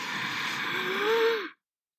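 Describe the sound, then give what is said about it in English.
A T-Rex inhales deeply through its nose in one long, airy breath. A faint whistling tone rises and then dips near the end before the breath cuts off abruptly. “leaned down close, inhaling deeply through its nose.”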